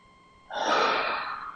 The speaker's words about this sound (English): Breathe it in.